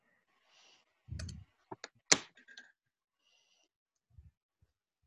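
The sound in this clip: Faint, sharp clicks of a computer mouse being right-clicked during a screen-sharing call, a few quick taps spaced unevenly with no talk over them.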